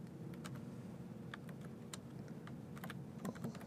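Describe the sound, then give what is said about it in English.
Typing on a computer keyboard as a new policy name is entered, producing quick, light keystroke clicks in short bursts over a steady low hum. “And there we will type in a new policy, so we'll say Knox.”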